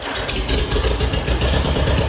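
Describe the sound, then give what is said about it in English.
Old farm tractor engine running, a loud, steady low chugging rumble with a dense rhythmic throb that holds an even pace throughout, heard alone. “That is how farm tractors used to sound back in the good old days”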